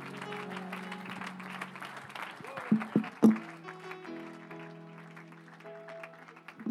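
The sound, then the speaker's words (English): Congregation applause for a visiting evangelist at an evening service: soft, steady clapping blended with voices and sustained musical tones, with a few sharper peaks in the middle. “I want our good evangelist to know how much we love him tonight with a great big hand clap.”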